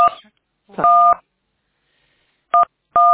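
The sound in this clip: Telephone keypad tones: several short, clear electronic beeps from buttons pressed on a phone, spaced irregularly with silent gaps between them.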